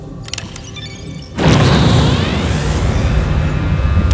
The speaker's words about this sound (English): A wormhole created through sound. This is incredible.